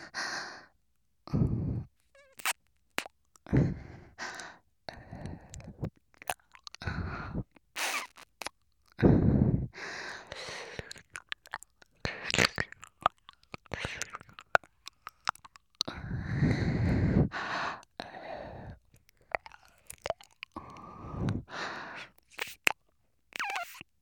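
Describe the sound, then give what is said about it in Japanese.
Wet ear-licking mouth sounds, close and intimate, come as many short smacking and slurping bursts with soft breathy sighs between them. No one speaks. “今度はお耳を舐めさせていただきます。”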